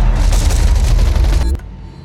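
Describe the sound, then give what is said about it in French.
Automatic weapons fire in a dense, rapid burst as soldiers come under attack, loud and continuous, then cuts off abruptly near the end. “Les soldats sont attaqués, des rafales d'armes automatiques.”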